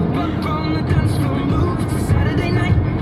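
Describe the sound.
Steady engine and road rumble from a car being driven, a dense, even low drone that stays constant throughout, with a voice talking over it.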